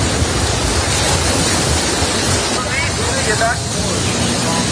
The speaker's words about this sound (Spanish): El sonido que estás escuchando es el de una playa de Hawái que ha sido evacuada tras activarse esas alertas de tsunami.